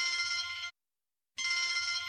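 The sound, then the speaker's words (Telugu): A telephone bell rings in two bright, steady trilling bursts separated by a short silence, with no talk over it. “ఓలమ్మ phone వచ్చింది.”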